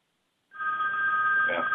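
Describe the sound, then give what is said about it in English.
A phone rings with a steady, continuous electronic tone that starts abruptly and holds at an even, fairly loud level without a break. “hold on a second, my phone's ringing.”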